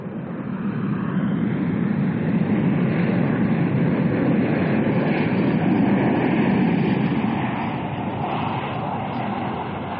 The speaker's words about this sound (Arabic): نطير الآن فوق الصحراء الغربية، ويمكن مشاهدة بحيرة قارون من الجانب الأيمن للطائرة.